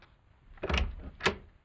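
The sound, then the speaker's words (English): A latchkey turns and a flat's front door swings open: two quick, soft clunks in otherwise quiet surroundings. “But as I latchkeyed self and despondency through the front door...”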